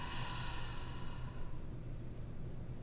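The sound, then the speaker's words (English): A deep, slow exhale during a guided breathing exercise: a soft, airy rush of breath that fades away over about a second and a half, quiet and alone, leaving faint low noise behind. “And inhale again. Hold it. Exhale.”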